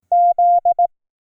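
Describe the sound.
Morse code for the letter Z: two long beeps followed by two short beeps, all at the same steady mid pitch, clean and alone.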